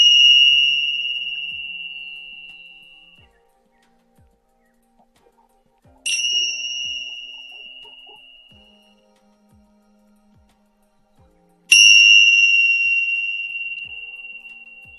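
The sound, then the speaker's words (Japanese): Tingsha bells are struck three times at even intervals. Each strike gives a bright, high, piercing ring that fades slowly over a few seconds, with near silence between strikes. “ティンシャ。うん。高い音が鳴りますので、少々お待ちください。ちょっとね、びっくりされるからごめんなさい。はい、それでは3回鳴らしていきます。”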